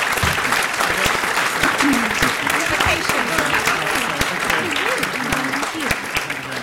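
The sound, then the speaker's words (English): A round of applause from an audience for a panel of five speakers after a discussion on rented housing standards: loud, dense, sustained clapping with voices audible underneath throughout. “So can we have a round of applause for all five of”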